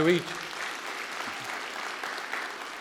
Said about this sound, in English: I'm always amazed that people clap at that.